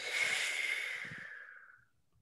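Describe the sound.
A person exhaling a deep breath, blowing out in one long airy hiss that starts full and gradually tapers away over about two seconds.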